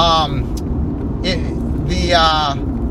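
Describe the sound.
A car's steady low road rumble and engine drone run continuously as the driver heads up to Wizards, with a voice talking over the noise in short bursts.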